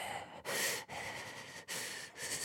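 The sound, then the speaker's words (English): Heavy breathing imitated by a voice, as an obscene caller on a phone line: a few loud, drawn-out, breathy rasps follow one another with short gaps, with no words spoken. “not being a sex pest on the other end, just heavy breathing”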